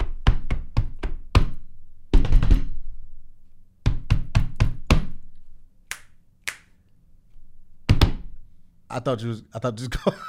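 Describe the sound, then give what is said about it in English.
Bongo drum hits land in quick clusters of sharp, dry slaps and knocks, with many strikes spread across the stretch and brief gaps between the bursts. “These are all strategically placed bongo hits, by the way.”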